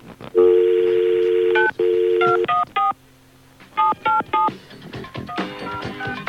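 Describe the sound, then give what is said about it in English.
Telephone keypad tones beep as a number is dialed: two long tones, then many quick, clipped beeps of changing pitch, followed by denser mixed tones toward the end. “I know what I did wrong. I dialed the wrong number.”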